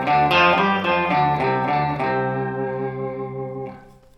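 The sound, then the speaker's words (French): Electric guitar played through an octave pedal that adds a tone two octaves below, giving thick, low, buzzy notes. A few picked notes are followed by a long sustained note that rings on and fades out at the end. “mais cette fois deux octaves en dessous. Donc encore une fois, je vous fais la différence entre le son naturel de la guitare et avec l'effet.”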